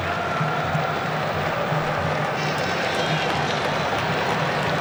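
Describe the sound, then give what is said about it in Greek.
Senegalese football fans applaud during a match, a loud, dense crowd roar with clapping that stays steady and continuous throughout. “Τα χειροκροτήματα από τους Σενεγαλέζους.”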